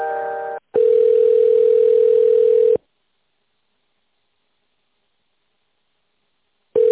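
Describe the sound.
Telephone line tone while a call is transferred: a short burst, then a steady single-pitched tone for about two seconds, a long silence, and the tone returning briefly at the end.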